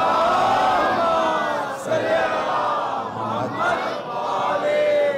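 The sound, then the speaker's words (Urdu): Crowd reciting durood, blessings on Muhammad and his family, many voices chanting together in a loud, sustained unison that swells and dips briefly a few times. “ایک محبت بھرا درود پاک بھیجے پر محمد و آل محمد۔”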